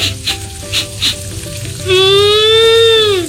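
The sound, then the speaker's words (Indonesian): Tofu and tempeh frying in a pan give a loud, steady sizzle with a few soft clatters early on, then a sustained whistling tone rises over the hiss and fades near the end. “Masak apa nih, Ma? Ada tahu, ada tempe, plus sayur bening, sama sambal terasi.”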